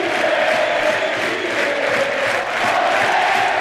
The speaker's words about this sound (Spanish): Excepcional ahora la reacción del público. Este inflador anímico necesitaba el equipo antes.